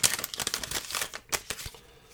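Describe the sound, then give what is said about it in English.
A 2010 Allen & Ginter trading card wax pack is torn open, giving a quick run of papery crinkles and tearing crackles over about two seconds with no voices. “There's eight packs. Let's open up four of these. So we'll get six times four, 24 cards. Here we go. I'm so excited. Let's open her up and see what we get.”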